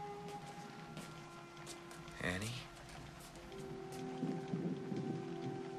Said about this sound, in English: As rain pours down outside